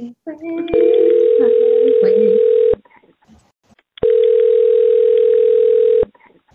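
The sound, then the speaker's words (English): A telephone tone sounds while a caller is connected to a call-in line: two long, steady mid-pitched tones of about two seconds each, separated by a short pause. A voice is briefly heard at the start. “So our first caller is Buck. So I'm going to get Buck on the line here.”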